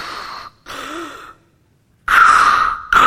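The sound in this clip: A voice imitates the mechanical respirator breathing of a villain in a life-support suit: two softer hissing breaths, a pause of silence, then a louder, harsher rasping breath followed by the start of another.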